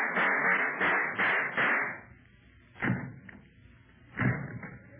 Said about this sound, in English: The 2 sound effects men shot each other.